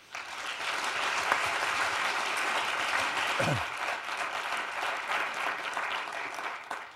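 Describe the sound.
Audience applause welcoming speakers to a forum at an Institute of Politics event. The clapping is steady and sustained, starting abruptly and holding at a full, even level before tapering slightly.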